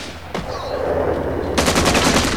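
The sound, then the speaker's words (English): Gunfire as rebels open fire: a single sharp shot, then a rapid, loud run of automatic bursts repeating in a steady rhythm until the end. “The rebels open fire.”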